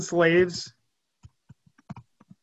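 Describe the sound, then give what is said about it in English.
Keyboard clicks as someone types on a computer, a short voice at the start followed by several light, irregular taps that are quiet and sparse. “Let me type it in.”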